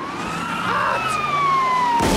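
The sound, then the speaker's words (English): Police car sirens wail as the cars race toward a bank. A loud, sustained electronic tone slowly falls in pitch, with a higher tone running alongside it, and traffic noise sits underneath. “police cars race towards the bank”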